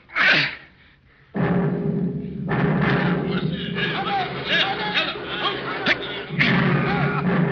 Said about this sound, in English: Let's have those grenades.